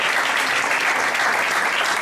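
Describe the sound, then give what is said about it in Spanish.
Steady, dense applause from an audience at a local town event honouring a community institution. The clapping holds an even, loud level throughout, with no voices standing out. “Un aplauso para una institución de nuestro pueblo, adelante”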